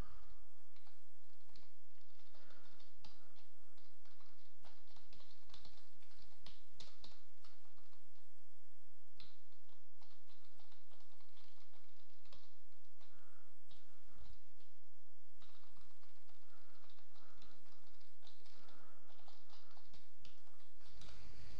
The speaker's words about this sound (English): A few more keystrokes, a little bit more noise